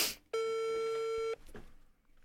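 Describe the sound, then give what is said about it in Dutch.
A phone call's ringing tone sounds as one steady, pure electronic beep lasting about a second, clear and alone, followed by near silence. “Ik ben hem al aan het bellen.”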